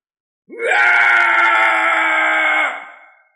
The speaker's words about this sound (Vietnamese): Phía xa truyền đến một tiếng thét dài, khắp cả dãy núi đều rung chuyển.